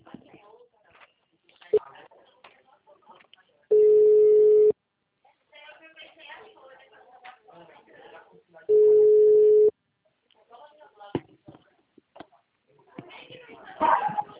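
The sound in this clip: Two ringback tones on an outgoing telephone call, each a steady low beep lasting about a second with a long gap between them. Faint voices and background chatter continue around the tones.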